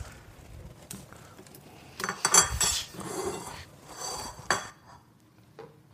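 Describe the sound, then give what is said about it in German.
Two plates are handed over and food is served onto them as a home meal is plated: a few soft clinks and scrapes of dishes and utensils, fairly faint, with no voices. “Wenn du mir zwei Teller geben würdest, könnte ich anrichten.”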